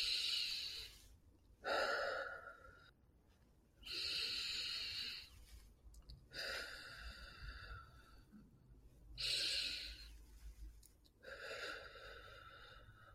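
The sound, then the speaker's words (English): Three slow, deep breaths, each a hissing inhale followed by a longer exhale, come in an even rhythm of six faint airy bursts separated by short quiet gaps, with no talking. “And then I would take 3 nice deep breaths.”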